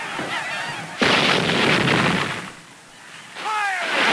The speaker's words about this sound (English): Fire! The Union's front line fires, then drops back to reload.